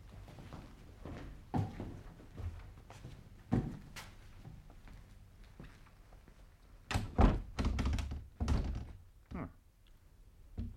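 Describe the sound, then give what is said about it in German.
A locked door is tried and rattled: a few dull thuds and knocks, then a denser burst of clattering jolts as the handle and door are worked, with quieter pauses between. “Sie ist abgeschlossen. Es wird sich schon ein Schlüssel finden.”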